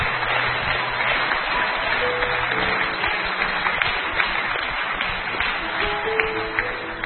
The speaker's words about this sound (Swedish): So all the people who've been leading the meeting, can we give them a hand?